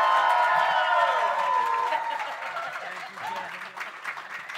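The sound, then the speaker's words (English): Audience applause and cheering at a live comedy show as a comedian is welcomed onto the stage, loud clapping with whoops at first that thins out toward the end. “Folks, put your hands together and welcome back into the Little Dunnup Club, Greg Flint!”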